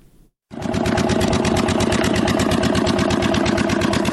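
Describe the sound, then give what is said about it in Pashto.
A generator supplying electricity to a pipe-making factory in an industrial park in Kandahar starts abruptly after a brief silence, then holds a loud, steady engine drone with rapid, even chugging. “لدی جنراتور څخه د پایپ جوړولو د فابریکې لپاره برېښنا برابرېږي.”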